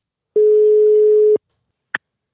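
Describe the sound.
A telephone ringing tone while a call is placed: one steady mid-pitched tone of about a second, then a short click, with no voices.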